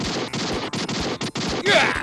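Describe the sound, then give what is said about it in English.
Gunfire rattles out in rapid bursts broken by several brief gaps, loud and harsh throughout, ending in a denser burst. “Nice try, Time Swimmers. Who can play at shooting haphazardly at moving targets?”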